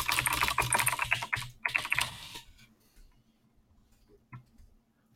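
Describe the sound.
Rapid typing on a computer keyboard while entering a web search: a brisk run of clattering keystrokes that stops about halfway through, leaving only a few faint clicks.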